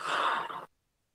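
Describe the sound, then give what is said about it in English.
A single long breath let out during a meditation, a soft breathy exhale lasting under a second and ending in silence. “Deep breath in and let it out.”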